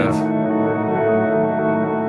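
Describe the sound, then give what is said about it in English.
An electric guitar tone passes through an effect that does the job of a reverb. After a short pick attack, the note or chord rings out as a smooth, steady, fairly loud wash that sustains without fading. “Reverby. Yeah, I was gonna say it kind of gives it, it's not a reverb, but it's doing the reverb's job.”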